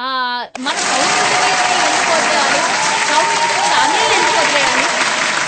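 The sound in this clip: Applause breaks in right after a brief spoken voice at a Telugu-language event about voting, then carries on loud and steady while someone keeps talking over it.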